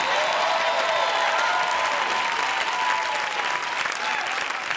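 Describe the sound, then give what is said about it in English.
Studio audience applause at a TV game show: a dense, steady clapping that carries at an even level through the whole stretch. “You can clap. It's okay.”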